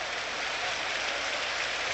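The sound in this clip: Crowd applause at a basketball game during two free throws, a dense, steady wash of clapping that holds at an even level throughout, with no clear talk on top.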